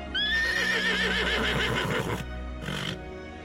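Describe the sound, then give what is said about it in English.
A male horse at a stable neighs as he settles into new surroundings. One long, loud, quavering whinny is followed by a shorter second burst. “During the late summer and early autumn of 2013, there was a horse making all of these sounds as he settled into his new surroundings at a stable in the southwest of England.”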